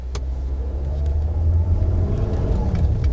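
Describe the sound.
A car drives away from a lonely spot at night with a steady, low engine rumble and road noise that holds fairly loud for the whole stretch.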